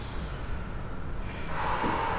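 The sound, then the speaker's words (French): A loud exhalation through the mouth during a relaxation breathing exercise, heard as a breathy rush that rises out of steady background noise in the final second. “Expirez bruyamment. Oui, par la bouche, lâchez les amarres.”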